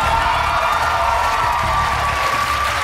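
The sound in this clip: A town hall audience cheers and applauds Senator Bernie Sanders at a college event. Loud, constant clapping is mixed with shouts and whoops, and it stays at full strength throughout.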